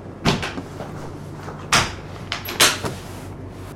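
A large wheeled chest being opened, giving a few sharp clunks and knocks of lid and latch spread across the moment, with quiet gaps between them and no talk.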